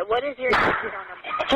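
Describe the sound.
A sharp gunshot bursts out on a recorded emergency phone call, a loud, brief crack cutting through a dispatcher's voice and other muffled speech on the line.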